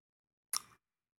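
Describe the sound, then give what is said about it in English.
Knuckles being cracked: a single brief, sharp crackling pop, faint and alone against silence. “I'm cracking my knuckles. I'm sorry.”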